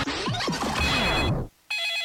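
A telephone rings with a bright, buzzing electronic bell tone. The ring first sounds inside a dense, noisy passage, then returns alone and clear after a brief silent gap.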